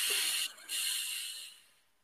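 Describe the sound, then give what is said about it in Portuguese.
A slow inhale during box breathing comes as a soft, airy hiss that briefly dips near the start, then continues steadily and fades away at the end. “Isso, então é 4 segundos para inspirar,”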